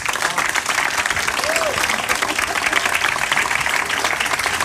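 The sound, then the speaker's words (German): Roaring applause from a studio audience: a dense, continuous wash of clapping that stays loud and even from start to finish. “Ich bitte Sie um einen tosenden Applaus.”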